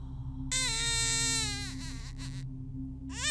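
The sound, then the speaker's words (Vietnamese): A baby cries loudly from up in a house: a long shrill wail that drops in pitch at its end, then short broken sobs, and a fresh rising wail starting near the close. “Bỗng nhiên từ trên nhà có tiếng trẻ con, nó khóc ré cả lên.”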